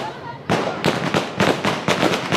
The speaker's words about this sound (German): Ehemalige Taliban-Kämpfer, die nun in Kabul als Polizisten agieren, schießen sekundenlang in die Luft.